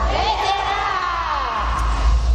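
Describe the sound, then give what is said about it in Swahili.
A celebrating audience ululates, with high trilling voices sustained over a low rumble throughout. “Vigelegele vya shangwe kwa baba. Zidisha vigelegele.”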